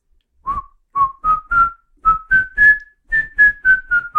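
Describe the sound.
Whistled melody from a pop song: a run of short, clear, bright notes in a steady rhythm that step upward in pitch and then ease slightly back down, heard alone with no voices.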